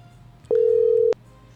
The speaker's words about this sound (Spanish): Ahí estamos entrando en llamadita, le estamos timbrando.